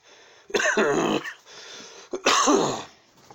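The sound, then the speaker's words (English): Two harsh, loud coughing fits, each lasting under a second and separated by a short pause, set against faint background hiss. “Sorry about the coughing. I don't know what's up with that.”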